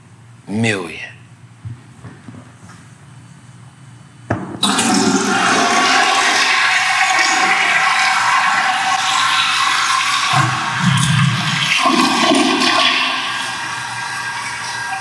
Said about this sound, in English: sometimes you gotta just let the toilet flush all the way through. Cause that's your thing. You gotta let the toilet flush like all the way through.